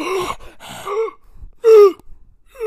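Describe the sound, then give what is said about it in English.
Breathing close to a microphone comes through as a few voiced gasps and sighs, separated by short quiet gaps, with one louder, strained breath near the middle. “now we got some really good audio of you of breathing. Of breathing. It just sounds like”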